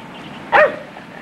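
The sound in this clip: A dog barks in a park: one loud, sharp bark rises out of quiet background, and a second bark begins just as the sound cuts off.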